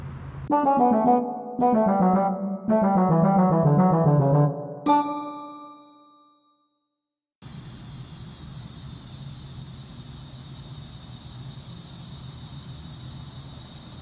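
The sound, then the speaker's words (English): Grasshoppers in North Carolina make a steady, unbroken high-pitched buzzing drone that holds level. Before it, several ringing vibraphone notes fade into a brief silence. “So that sound is grasshoppers.”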